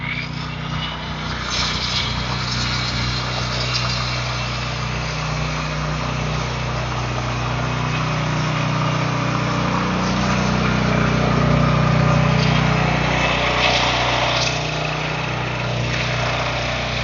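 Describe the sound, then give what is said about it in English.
Steady, loud engine drone from an electric generator running while a power saw cuts a gate. The drone is continuous and swells slightly toward the middle. “they're going to light a saw up here. This is going to get loud. Cutting a gate?”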